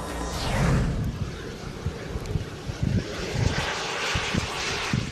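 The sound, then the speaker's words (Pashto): Steady engine roar of a small unmanned aircraft in flight, an experimental UK-built drone designed with no moving control parts. A broad whooshing drone holds throughout, with low rumbling pulses beneath it. “د ماګما په نامه دغه الوتکه په خپل ډول کې یوه خاصه بی پیلوټه الوتکه ده.”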